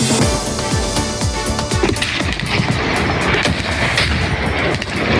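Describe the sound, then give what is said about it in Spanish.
Bombs exploding in the war between Pakistan and Afghanistan make a loud, dense rumble of many deep booms and sharp cracks that pile up without pause. “Pakistán ha entrado en guerra abierta con Afganistán. Este es el sonido de las bombas.”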